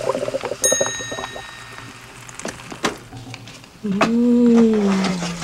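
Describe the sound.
A food hydrator machine rehydrating a pizza gives a bright chime-like ding near the start, then a loud, sustained whirring tone that rises slightly and slowly falls over the final seconds. Brief talk is heard early on.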